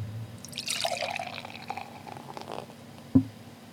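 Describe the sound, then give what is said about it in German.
Beer poured into a glass, a faint gurgling splash that settles into a quiet fizz, followed by a single sharp knock near the end. “Hört man als Brauerin schon, wenn man einschenkt, ob das ein besonders gutes oder ein besonders schlechtes Bier ist?”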